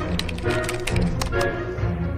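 Typing on a computer keyboard to enter a question produces a quick, irregular run of key clicks over steady background noise.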